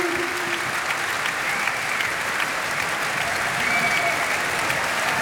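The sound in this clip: Standing ovation applause from a concert audience for an emotional performer: dense, steady clapping that holds at an even loudness throughout, with no voices standing out.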